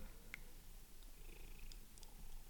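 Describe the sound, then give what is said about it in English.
A cat purring while curled on a person's lap, a soft, continuous low rumble that stays faint and even throughout, with no other sounds standing out. “She's on my lap, actually, and you might be able to hear her purring in the background.”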